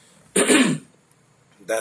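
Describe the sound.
A throat is cleared of phlegm: one harsh, rasping clearing sound, then a pause and a shorter second rasp.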